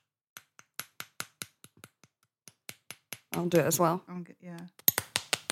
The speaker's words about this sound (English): Here's the sound of the creme brulee that we're going to be eating.